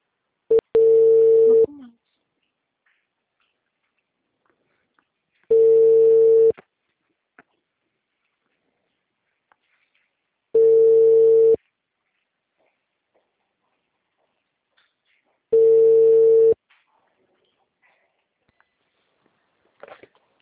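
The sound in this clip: A telephone ringback tone plays while a dropped call is redialed. Four steady, mid-pitched tone bursts, each about one second long, repeat roughly every five seconds with silence between them.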